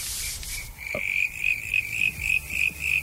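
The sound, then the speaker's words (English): Frog croaking: a steady series of many short, rasping, fairly high croaks repeating at an even rhythm, loud and alone with no voices. “it's quite hard to get the sound of a proper frog as well, if anything's... Listen.”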